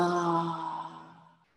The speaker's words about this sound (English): So let's take a deep breath in and exhale.